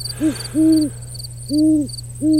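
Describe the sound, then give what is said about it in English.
Owl hooting on an overcast night: four low, rounded hoots spaced irregularly, heard alone over a steady low hum with faint high tones. “And, wow, an owl, cool.”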